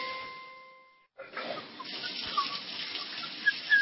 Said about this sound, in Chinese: 看见有那个水龙头不关的，哗哗流的，心疼啊！